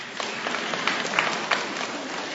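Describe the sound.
Audience applause for a child named in a group setting: a dense, steady wash of many hands clapping that holds at an even loudness throughout, with a few sharper claps standing out and no clear voices over it.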